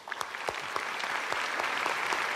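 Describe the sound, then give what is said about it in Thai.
Audience applause for a singer: dense, steady clapping from many hands with sharper individual claps popping out, holding at an even level throughout. “ปรบมือเขาหน่อยครับ”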